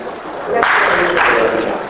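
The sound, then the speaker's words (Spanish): An audience at a talk on household waste and recycling breaks into applause after a quieter moment. The clapping starts abruptly and stays loud and sustained to the end. “No, quien quiera aplaudir, que aplauda.”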